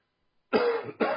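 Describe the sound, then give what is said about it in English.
Two harsh coughing bursts from a person with a lingering cough picked up while travelling: a longer rough burst followed by a shorter one that is cut off, heard alone without talk. “Sorry for the cough. Came back from China with it. It will go away.”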